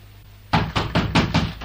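Knocking on a door: five firm, evenly spaced raps, clear and alone with no voices.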